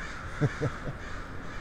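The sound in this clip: A crow gives three short, hoarse caws in quick succession, the last one weaker, all faint over a steady low hiss.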